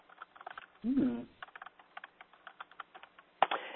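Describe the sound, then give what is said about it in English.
Keys clatter on a computer keyboard as the drug name Lexapro is typed into a search: many quick, light clicks in uneven bursts, with a sharper tap near the end. “Sometimes you could just, like, if I type Lexapro and I type next to it nutrient interaction,”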